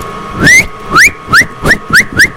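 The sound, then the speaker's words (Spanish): A person whistles six quick notes, each sliding upward in pitch, in a loud, shrill, steady repeating rhythm over a low background rumble. “Cuimo es chiflar o silbar, ¿sí?”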